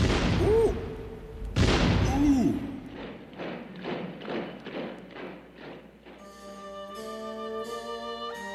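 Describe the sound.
Gunfire from a firing squad cracks out in two loud, broad blasts, each followed by a voice. A run of softer, evenly spaced thuds comes next, then music begins.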